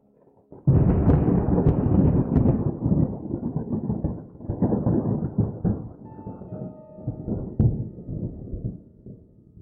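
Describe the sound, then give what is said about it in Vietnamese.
Thunder crashes from countless lightning bolts striking down in a storm over a mountain peak: a loud, sustained rumbling roar that breaks in abruptly, swells with several sharper cracks, then slowly eases off. “trên không trung lập tức quang mang lập lòe, vô số đạo kinh lôi đang bổ xuống.”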